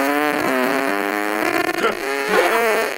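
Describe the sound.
A prolonged, buzzy fart sound played for a radio guessing game, loud and continuous for about three seconds, wavering in pitch, briefly sputtering and thinning midway before swelling back up.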